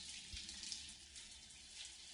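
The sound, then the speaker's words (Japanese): Hot water running through hair as shampoo foam is rinsed out, a faint, steady hiss of flowing water that goes on without a pause and with no voices. “お湯で泡を流していくよ。生え際から少しずつ、”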